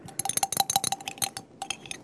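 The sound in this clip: Quick, bright clinks of a utensil against glass as a thickening agent is added and stirred into a liquid soap mixture. Many rapid taps with a short pause near the end.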